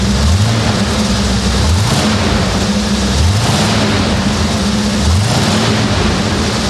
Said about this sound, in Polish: Pracuje pięknie i odpalił od razu. Myślę, że nie najgorzej zapalił, jak po takim czasie stania.